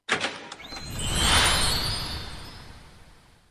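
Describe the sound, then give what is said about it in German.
A golden fairy-tale gate opens as a magical sound effect: a few bright, glittering chime-like ticks at the start, then a broad, airy whoosh that swells to a peak midway and slowly fades away, with no talking. “Und jetzt öffnet sich das goldene Märchentor”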